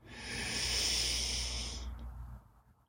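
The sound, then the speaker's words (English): A long, steady breath drawn in through the nose during a guided relaxation breathing exercise, a soft airy hiss lasting about two seconds before fading, heard alone without talk. “We're going to breathe in through the nose and out through the mouth. In we go.”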